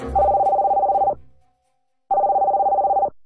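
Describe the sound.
A telephone ringing with two loud trilling bursts, each lasting about a second, separated by a short silent pause.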